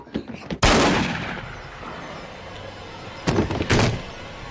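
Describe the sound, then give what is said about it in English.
A gunshot is fired through a front door: one loud, sharp blast that rings out and fades slowly, followed near the end by a few shorter, fainter bangs. “Elliot recoils in horror as Josh is blasted through with shot from the barrel of the gun poked out through the front door”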